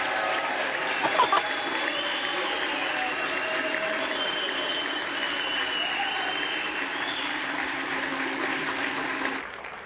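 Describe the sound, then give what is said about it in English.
Sustained applause and cheering from lawmakers in the US House chamber for Hakeem Jeffries during a speaker vote tally, loud and steady throughout with a few voices rising above the clapping. “Yeah, cheering for Hakeem.”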